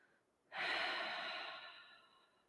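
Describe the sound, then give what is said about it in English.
A deep breath: one loud, breathy rush of air that starts abruptly, holds steady, then slowly fades over about two seconds, with no talking. “deep breath.”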